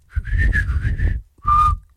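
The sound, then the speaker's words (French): A person whistles a short tune after being asked to try: a longer wavering whistled phrase, a brief pause, then one short higher note, moderately loud and alone. “Tu sais siffler, toi? Un petit peu. Vas-y.”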